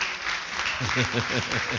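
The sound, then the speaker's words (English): An audience applauds a political correspondent with a short burst of clapping, and a voice talks over it in the second half. “Clap for my political correspondent.”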